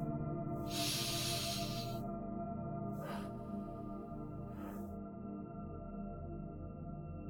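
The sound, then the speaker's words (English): Deep breathing in a guided meditation: one long, airy hiss of breath, then two shorter breaths, all soft and set over a steady, gentle sustained music bed. “Let's do those breaths now together. Here's breath one. Here's breath two.”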